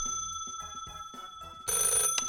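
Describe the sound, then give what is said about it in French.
A telephone rings after a number is dialed: a quick series of warbling ring bursts, then a louder, denser burst of ringing at the end. “je te propose de composer le numéro. Ah. Ça sonne.”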